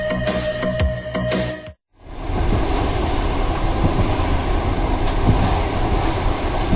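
A train sound effect in a radio station jingle: a brief burst of tonal music, a short silence, then a loud, steady rumble and roar of rail noise that carries on to the end.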